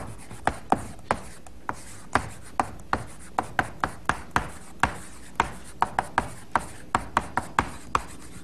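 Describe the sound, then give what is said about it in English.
Chalk writing on a blackboard: many sharp taps and short scraping strokes in an irregular rhythm, fairly loud and with no voice over them. “So let's write down here the kinds of expressions there are.”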